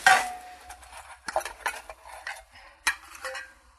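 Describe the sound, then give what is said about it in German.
Marzipan and raisins are mixed with a utensil in a bowl for a baked-apple filling. Soft scraping and clicking is broken by a few sharper knocks, with no talking. “mit den Rosinen mischen. Ja. Ah ja, das reicht.”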